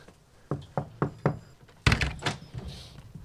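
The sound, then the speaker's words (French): Knocking on a front door: four evenly spaced sharp raps, followed by a louder clattering thud, apparently the door opening, with a faint rattle afterward; no speech. “Est-ce qu'il y a une cloche? Non, mais on va frapper.”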